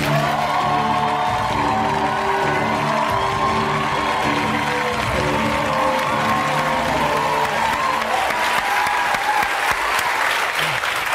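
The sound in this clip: A talk-show audience cheers and applauds loudly to welcome a guest. Dense clapping and whoops run without a break for about eleven seconds.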